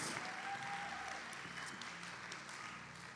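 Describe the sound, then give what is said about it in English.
Church audience applauding to welcome first-time guests at a service. The steady, faint clapping continues throughout and slowly tapers off. “One more time, would you put your hands together and welcome all of our first-time guests that are here today.”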